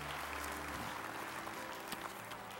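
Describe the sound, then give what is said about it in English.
A church audience applauding to welcome new members: soft, even clapping from many hands that carries on steadily throughout. “Can we put our hands together and welcome people into God's kingdom today?”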